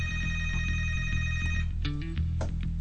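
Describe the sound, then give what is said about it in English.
A telephone rings as a caller phones in, a bright electronic ring repeating in steady pulses, fairly loud and continuous with no talking. “And someone's already taken it upon themselves to call in.”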